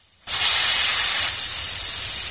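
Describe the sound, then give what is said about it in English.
Air hissing out of a shiny new bicycle's two tyres after a pin is pushed into them. A loud, steady hiss starts abruptly after a brief quiet moment, then continues unbroken and eases slightly toward the end. “The air hissed out of them, and the tyres soon went flat.”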